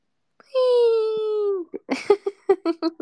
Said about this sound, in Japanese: バナナの猫泣いてるの好き